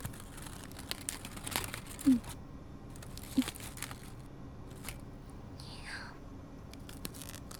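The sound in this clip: Aluminium foil is crinkled around food for steaming, making soft, irregular rustles and crackles at low volume, with a couple of sharper crinkles standing out.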